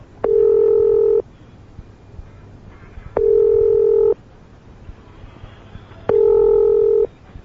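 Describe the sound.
Touch tones from a telephone number being dialled for an international call. Three long, steady tone bursts, each about a second, are separated by quiet gaps with a low background hum.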